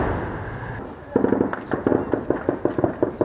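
Explosions and artillery-like fire in a war zone: after a stretch of low rumbling noise, a dense, irregular run of many sharp, loud cracking bursts follows in quick succession.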